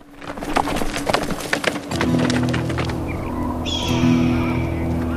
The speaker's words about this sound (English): As he tightens the reins to make the horse circle, Joshua looks up into the distance briefly, then back down at the ground. He rides off through Spartan scrubby bushes.